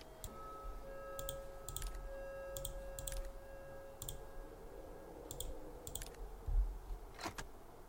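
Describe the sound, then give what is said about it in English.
Sharp clicks from a video game puzzle as a panel falls off: many quiet, crisp clicks at irregular intervals over faint hum and a thin, steady tone. “A click? The second panel falls off.”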